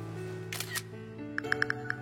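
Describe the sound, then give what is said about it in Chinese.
A quick series of sharp camera shutter clicks as a photo is taken from a car's passenger seat on an ordinary morning, crisp and evenly spaced over a low steady background hum. “在此平常的一天拍照发送朋友圈”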